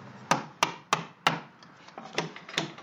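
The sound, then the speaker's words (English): Knife held sideways peeling the outer band off a strip of wood for basket weaving, the wood clamped in a split bench vise: a series of sharp, dry woody scrapes and snaps with uneven gaps, the later ones softer. “Holding his knife sideways, he peels the outer band off of the wood. Each of these steps narrows the wood so it can eventually be woven into a basket.”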